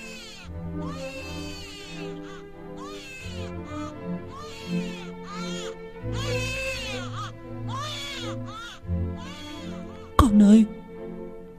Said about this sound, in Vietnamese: Thế rồi nghe tiếng con khóc ở bên ngoài. Tiếng trẻ con khóc đến xé lòng.